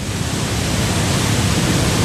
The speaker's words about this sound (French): sur un lac, enfin sur un oui, une grande étendue d'eau qui est bornée par des chutes bouillonnantes, et on est avec Achira